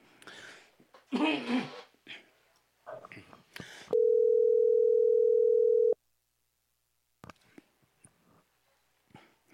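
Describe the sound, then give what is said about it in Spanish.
Telephone dial tone while placing a call: a loud, steady, even hum holding for about two seconds, framed by short scattered bursts of other sounds before it and near-silence after. “A ver, le estamos llamando al candidato Alfredo Raimundo.”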